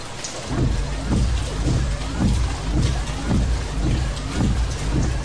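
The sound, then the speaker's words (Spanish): Steady rain hisses at night during a car ride, a dense wash of noise with a regular low thumping repeating underneath. “Es de noche y llueve.”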